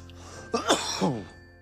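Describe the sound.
Coughing and throat clearing after pipe ash went down the throat: a few harsh, raspy bursts in quick succession, fairly loud against a quiet background.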